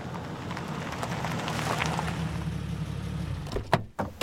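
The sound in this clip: A car pulls up beside a red truck, its engine making a steady low rumble for several seconds before the noise cuts off and a few short, sharp clunks follow.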